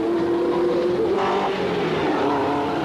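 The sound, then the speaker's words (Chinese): A sleek, newest-model race car accelerates during a Formula One Grand Prix in an animated cartoon, its engine a loud, sustained, steady drone with no voices. “加菲系揸住一架外形非常优美、最新式嘅跑车，逐子帮由后面赶上嚟啦”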